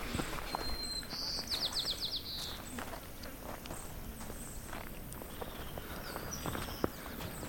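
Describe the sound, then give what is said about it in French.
Quiet footsteps climb a path through a beech and hazel forest on the slope of a volcanic crater, a soft, steady patter of many steps with bird chirps rising briefly above them. “On commence tranquillement à monter euh, sur ce chemin qui traverse euh, cette forêt de hêtres et de noisetiers.”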